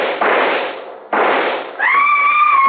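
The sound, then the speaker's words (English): Rifle fire in a radio drama: two loud, sustained blasts of noise, one after the other, then a steady high ringing tone. “I raised my rifle and...”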